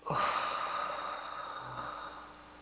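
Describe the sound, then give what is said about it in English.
A deep breath during a guided breathing exercise: one long, airy rush of breath that swells quickly and then fades gradually over about two seconds, with no speech. “Let's start by inhaling. Now exhale.”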